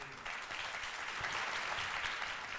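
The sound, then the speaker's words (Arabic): An audience applauds as ambassadors are introduced at a ceremony. Dense, steady clapping from many people starts after a brief quiet moment and continues evenly, fairly faint overall. “تعالوا نتعرف عليهم بتصفيق عارم من الجمهور”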